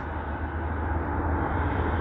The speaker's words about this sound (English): A jet just flew over me.